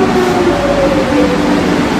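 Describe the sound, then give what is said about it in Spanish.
Steady rumble of a metro train ride in Madrid, a continuous dense roar with a faint high whine drifting through it and no voices. “Trayecto de metro en Madrid.”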